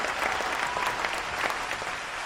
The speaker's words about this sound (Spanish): Muy bien, un aplauso para todos. Un aplauso para todos.